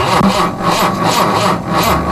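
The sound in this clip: A car engine idles with a loud, steady rumble and a regular pulsing throb.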